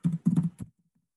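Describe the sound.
Typing on a computer keyboard makes a quick flurry of clicking keystrokes that lasts about a second and then stops, with no voices over it.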